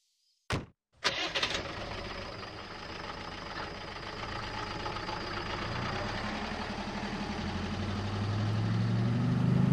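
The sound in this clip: A station wagon's engine starts by a roadside during a long highway drive. Two sharp clicks come first, then the engine settles into a steady mid-pitched idle whose low rumble grows gradually louder toward the end.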